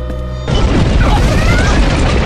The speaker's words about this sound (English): That was a subspace shockwave,